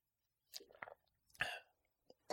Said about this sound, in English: We just drank our water at the same time.